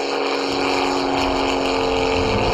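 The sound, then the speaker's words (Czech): An aircraft flyover sound effect plays inside a lift, a steady, loud engine drone with a broad roar and humming tones that stays fairly even throughout. “Takže když se třeba jede z druhého patra do třetího, kde je výstava letectví, tak se ozývá zvuk přelétávajícího letadla.”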